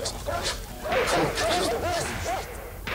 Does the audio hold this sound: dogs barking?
yes

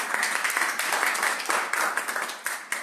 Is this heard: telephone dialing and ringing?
no

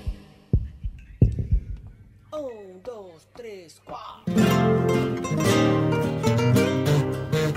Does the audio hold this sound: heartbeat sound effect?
yes

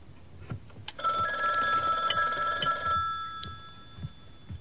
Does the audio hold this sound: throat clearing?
no

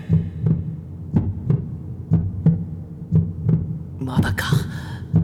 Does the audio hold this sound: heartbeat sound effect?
yes

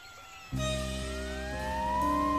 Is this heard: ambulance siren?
yes

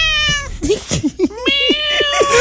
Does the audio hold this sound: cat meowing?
yes

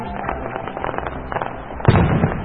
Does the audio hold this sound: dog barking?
no

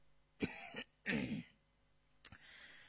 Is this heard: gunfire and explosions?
no

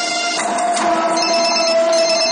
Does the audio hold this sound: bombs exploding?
no

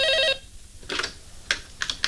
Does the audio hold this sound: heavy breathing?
no

